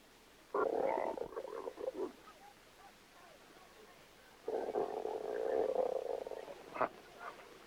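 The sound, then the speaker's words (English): Loud gurgling growls of a man's rumbling stomach at a bread-and-butter tea: two long, throaty rumbles separated by a quiet pause, with no talk over them. “Just listen to this stomach of mine. The way it sounds, you'd think I had a hyena inside me.”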